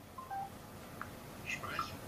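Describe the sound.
Faint telephone keypad dialing tones as a caller rings back, a few short, quiet beeps spaced irregularly over a low background hiss.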